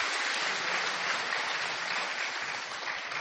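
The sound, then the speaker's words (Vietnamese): An audience in a hall applauds to congratulate during a Buddhist ordination ceremony, a dense, even clapping that stays steady from start to finish. “Xin hội trường một tràng pháo tay để chúc mừng.”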